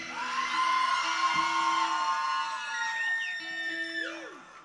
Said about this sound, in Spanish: ¿Quién es la persona que va a hacer el alarido más bestial esta tarde de hoy?